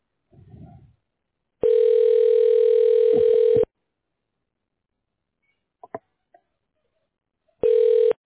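Telephone tones while dialing a medical clinic's phone menu: a steady electronic beep lasting about two seconds, then a few faint clicks, then a shorter beep of the same pitch at the end.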